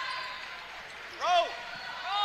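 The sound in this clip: A basketball dribbled on the court during a Mountain Home game, with a sharp shoe squeak in the middle, heard under a commentator talking.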